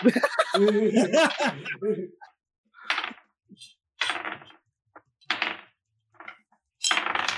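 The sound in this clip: Many dice rattle and clatter in several short, sharp bursts separated by silence, following laughter and voices at the start.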